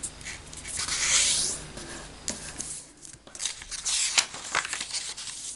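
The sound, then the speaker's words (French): A sheet of A4 paper being folded twice: rustling, scraping paper strokes and crisp creasing sounds rise and fall in bursts, moderately loud, with no voices. “Voilà, premier pli et second pli. Savez-vous que vous ne pouvez plier une feuille de papier de format A4 que 7 fois maximum ?”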